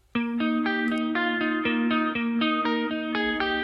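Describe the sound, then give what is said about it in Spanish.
An electric guitar plays a melodic line with chorus effect on, a quick run of distorted, evenly picked notes whose tone has a faint wavering shimmer. “Y si le ponemos el chorus suena así.”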